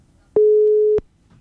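A single steady telephone tone as a call is placed, lasting just over half a second, level and mid-pitched with abrupt start and stop.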